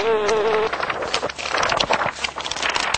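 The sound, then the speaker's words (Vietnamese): A panicked bee buzzes, beating its wings as it tries to fly off with its legs stuck. A wavering tone at the start gives way to a rough, fluttering drone that keeps going to the end. “Ong sợ cuống cuồng, cất cánh toàn bay, nhưng không sao gỡ chân ra được, làm kêu lên những tiếng ồ ồ như người đọc sách.”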